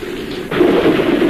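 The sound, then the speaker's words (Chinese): Thunder breaks during a spring rainstorm: a steady hiss of rain is suddenly joined by a loud, low, sustained rumble about halfway through. “哟，打雷了！”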